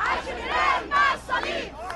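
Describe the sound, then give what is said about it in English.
Crowd chanting and shouting at a street celebration in the Little Egypt neighborhood of Queens, New York, marking Mubarak's ouster. Many voices rise together in repeated loud surges. “Crowds paraded in the streets of the Queens neighborhood known as Little Egypt.”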